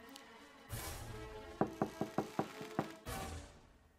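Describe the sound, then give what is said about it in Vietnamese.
Knocking on a house door at night: a quick run of several even, sharp raps, fairly faint, set in a low background hum. “Tiếng gõ cửa vang lên trong bóng đêm làm cả ba tên giật mình.”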